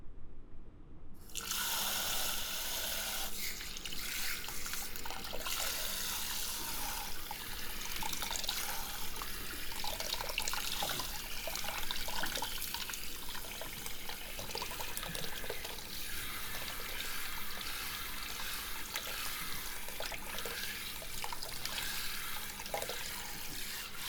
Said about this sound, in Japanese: シャワーで流しまーす